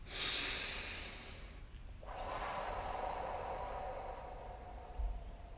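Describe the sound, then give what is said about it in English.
A deep breath is drawn in through the nose, then let out through the mouth: a long, soft, airy inhale followed by a brief pause and a steady, breathy exhale of similar loudness. “And the first breath in through the nose, if you can, and out through the mouth.”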